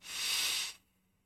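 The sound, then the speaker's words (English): A deep inhale during a guided meditation: a single smooth, airy hiss that holds steady for most of a second, then stops abruptly into near silence. “And breathe very deeply all the way in.”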